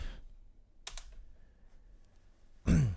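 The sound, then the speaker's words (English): Typing on a computer keyboard, a few sparse, light key clicks scattered over a quiet background rather than a steady flow of keystrokes. “You get to hear me type.”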